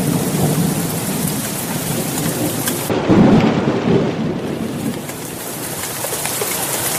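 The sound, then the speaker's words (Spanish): Heavy rain shower with thunder: a dense, steady hiss of pouring rain runs throughout, with a low rumble of thunder swelling louder near the middle before easing back. “Ahí hay lluvia hoy.”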